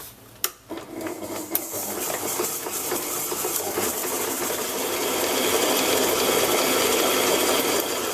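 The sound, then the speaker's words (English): An electric mixer creams butter and sugar with a steady whirring motor drone. A couple of sharp clicks come near the start, then the hum settles and grows slightly louder. “Now just turn your mixer on or beater and just cream this until it's light and fluffy.”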